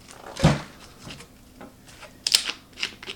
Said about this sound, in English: All right, I have my plant, nice healthy plant here. I'm gonna open up this bottle.